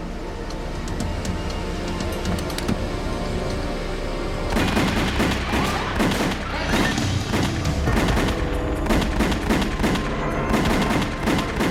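Gunfire as shooters open fire on two men beside a parked car: a dense, unbroken barrage of rapid shots with booming impacts, growing louder and sharper after the first few seconds.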